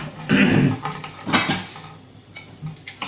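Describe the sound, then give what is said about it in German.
Dishes clatter as a plate is taken and melon is poured out of a big pot: a few bright clinks and scraping knocks in uneven bursts, with no talking. “Ich weiß gar nicht, ob man das dann einfach rauskippen kann. Ich werde dann mal noch einen zweiten Teller nehmen.”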